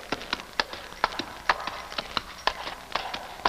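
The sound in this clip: Horse hooves clop on a hard rocky ledge as the rider approaches a cave, with many sharp, uneven strikes in a steady walking rhythm.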